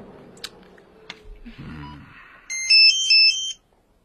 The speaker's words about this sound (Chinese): 你的手机。